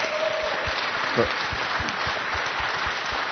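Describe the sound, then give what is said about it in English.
An audience gives steady, dense clapping, a continuous wash of hand claps at even loudness with no clear pause. “Shall we all just give Jesus a clap for his,”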